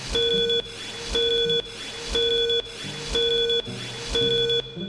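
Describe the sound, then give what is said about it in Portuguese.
A five-second electronic beep sequence: five identical high, steady tones, each about half a second long, sound once per second in an even rhythm with brief gaps of quiet. “Atenção, senhoras e senhores, para o toque de 5 segundos.”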